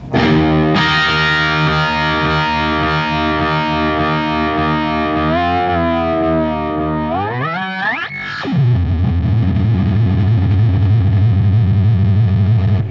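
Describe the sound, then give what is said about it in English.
Electric guitar noises through an MXR Carbon Copy delay pedal: loud, distorted sustained tones with wavering pitch, a sharp upward swoop that plunges back down near the end, then a lower buzzing drone. “I go into an MXR carbon copy delay that I just goof around with it with different noises and stuff. Yeah. Like you might hit something like.”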